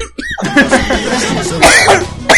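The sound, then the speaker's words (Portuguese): A person coughs as if choking, a run of harsh, breathy coughing bursts that come in uneven fits, loud and rough, with gasping sounds between them. “vou engasgar.”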